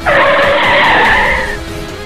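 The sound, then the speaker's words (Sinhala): A bus brakes suddenly with a loud, high tire screech that holds for over a second, then eases off into a fainter rumble. “එක පාර්ටම් බස්ස එක break කරා”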